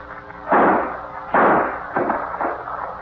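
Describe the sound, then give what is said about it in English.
Gunshots from a handgun held to a man's head, heard as a few sharp, booming blasts. The first two are loudest, and two weaker bursts follow close together, each with a short decaying tail. “Put that gun to his head and let him have it.”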